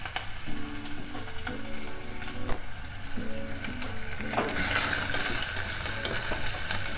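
Bacon and garlic frying in a pan, a continuous crackling sizzle with scattered pops and scraping stirs, holding a steady moderate level throughout.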